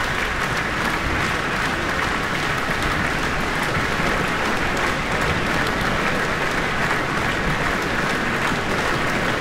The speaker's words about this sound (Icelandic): Já, fagnaðlátunum linnir engan veginn hér.